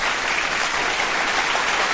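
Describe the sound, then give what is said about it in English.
An audience giving a performer a round of applause, with dense, even clapping that holds at a steady loud level for the whole stretch and no voices over it. “I think our audience wants to chime in and give you a round of applause.”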